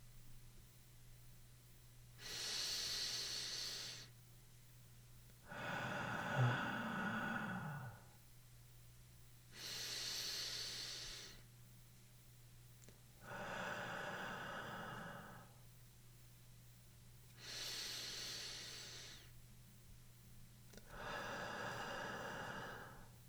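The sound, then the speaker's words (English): Slow, rhythmic human breathing: six soft, airy breaths alternate in three even inhale-exhale cycles of about three seconds each, with pauses between them and a steady low hum underneath. “Count 3 seconds for the inhalation and 3 seconds for the exhalation. You can breathe along with me.”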